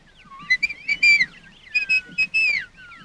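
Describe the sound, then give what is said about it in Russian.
A person whistles a signal call to scouts training among trees: two bursts of short, high, warbling whistled notes, fairly loud, with no talk. “Со стороны смотрит на тренирующихся разведчиков, тоже начинает свистеть.”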